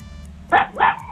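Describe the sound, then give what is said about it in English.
A dog barks twice in quick succession, loud and sharp above a low steady background hum. “Not the dog. The dog's trying to answer.”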